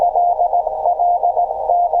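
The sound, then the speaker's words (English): Morse code tones used to send out the contents of a text file. A single steady mid-pitched beep is keyed on and off in a rapid pattern of short and longer pulses, loud and alone. “You can hear the nice Morse code.”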